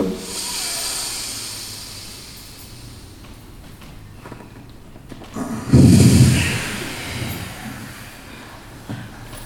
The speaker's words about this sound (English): Full exhale. And last time now.